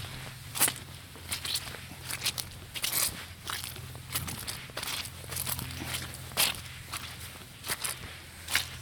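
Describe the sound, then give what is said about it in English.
Running shoes squelching through squishy mud on a snowless stretch of trail at Mono Cliffs, with many soft, fairly quiet footsteps in an uneven walking rhythm. “Actually, this suddenly there's no snow right here. It's just squishy mud. So here's more sound effects for you.”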